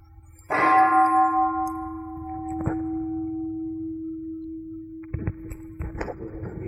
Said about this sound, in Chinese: 比如这个声音，这个铃钟的声音会跑过来，然后这个木头拿出来的时候是一个声音，它是不同的声音